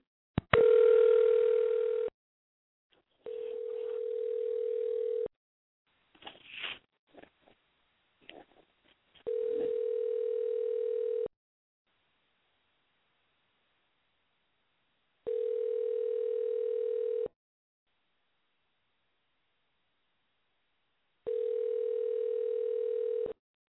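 Telephone dial tone on a landline while dialing out: a steady mid-pitched electronic tone in two stretches, then a few soft clicks, then three evenly spaced tone bursts separated by silence.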